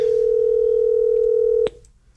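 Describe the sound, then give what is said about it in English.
A steady telephone tone as a call is placed to a listener. It holds one even pitch for about a second and a half, then cuts off with a click. “I called out PA and I am going to call our very first texter who texted Wednesday.”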